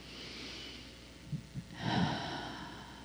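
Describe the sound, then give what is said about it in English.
A deep breath taken during a guided meditation: faint and soft, with a couple of short sniffs followed by a longer, fuller breath in that slowly fades. “And take another breath.”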